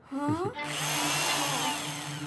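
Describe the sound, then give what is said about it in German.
A power drill bores a hole before a birdhouse is hung, spinning up briefly and then holding a loud, steady whine for nearly two seconds. “Ich muss nur noch schnell ein Loch bohren.”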